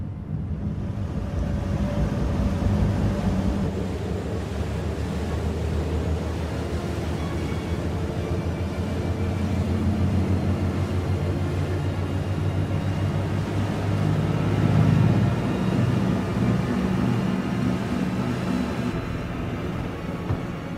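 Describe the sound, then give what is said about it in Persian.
Steady low engine drone of a vehicle running at low speed, kept at low revs on the way to the nearest port, a continuous even hum with a rushing, wind-like wash over it and no talking. “میگم مطمئنی نمیتونی یکم سرعتو بیشتر کنی؟ نه گفتم که بالا بردن دور موتور خطرناکه.”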